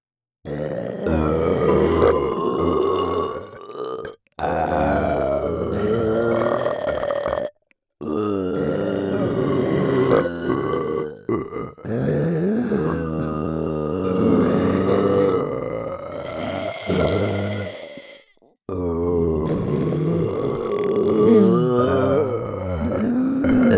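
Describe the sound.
A person burps repeatedly, producing a series of long, loud, deep, rasping belches separated by brief pauses.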